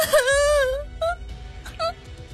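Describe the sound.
A girl cries loudly on a raft at sea: one long, high wail, then a few shorter, fainter sobs as a hand covers her mouth.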